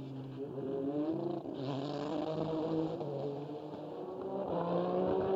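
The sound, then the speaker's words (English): A race car engine drones continuously as the car crosses the line at Laguna Seca during a 2020 WeatherTech SportsCar Championship session, its harmonic whine shifting in pitch and climbing toward the end. “There goes Ollie across the line, and he goes into second, 0.072 of a second.”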